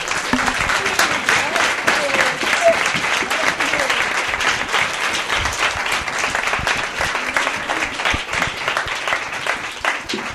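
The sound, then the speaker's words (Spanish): An audience applauds at a live radio interview event, a dense, continuous wash of many hands clapping that stays loud and even for about ten seconds. “Bueno, pues otro aplauso,”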